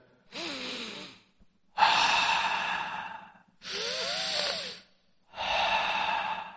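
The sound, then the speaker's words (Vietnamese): Deep, forceful breathing during slow martial arts practice of a standing stance form: four long, loud breaths separated by short pauses, with no talking. “Tiếng hít thở trầm thấp mà đanh thép”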